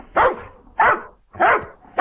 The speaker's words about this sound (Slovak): Tak to znie to šteniatko, keď vyrastie.